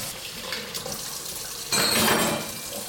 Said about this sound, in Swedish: Nu sköljer jag de här kladdiga redskapen.